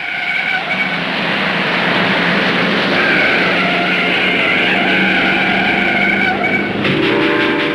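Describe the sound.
A passenger train with private compartments runs on rails, making a loud, continuous rumbling roar with a hissing, rattling upper layer. The sound stays steady throughout, with a brief change in tone near the end.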